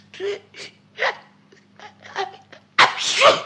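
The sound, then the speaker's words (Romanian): A cartoon character's sneeze, set off by a bitter powder, bursts out loud and breathy at the end after a few short voiced catches. “M-a lovit strănutul.”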